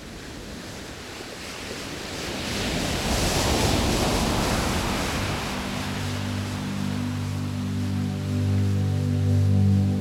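Ocean waves wash onto the shore in a broad, steady rushing swell that builds and holds, with soft sustained musical tones entering during the second half.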